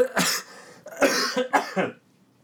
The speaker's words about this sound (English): I think that cough could use a little krill oil.